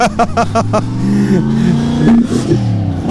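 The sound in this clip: A car engine revs after a lap, its rough, droning hum shifting in pitch. Voices speaking French sound over it at the start.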